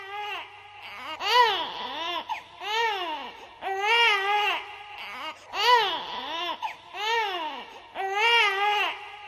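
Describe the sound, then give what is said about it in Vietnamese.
Baby crying, mournful and persistent: repeated wavering wails rise and fall in many rhythmic bursts with short breaths between them, loud and alone throughout. “Quả nhiên là tiếng khóc lóc của một đứa bé, nghe ai oán và dai dẳng, thê lương vô cùng.”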